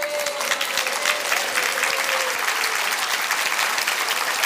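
Applause and cheers from a large audience at a spiritual convocation, steady, dense clapping held at an even level across the few seconds, with a faint tone near the start.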